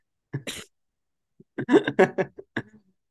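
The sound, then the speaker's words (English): Coughing from a person who is ill: a short double cough, a pause, then a longer burst of several harsh, closely spaced coughs that trail off. “Well, I was gonna say before I started coughing that”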